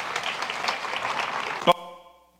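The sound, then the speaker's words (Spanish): Audience applause for a thin seminarian at a seminary gathering: a steady wash of clapping that ends with one short, bright ringing tone, which fades out alone. “Venga, un aplauso para el seminarista flaco.”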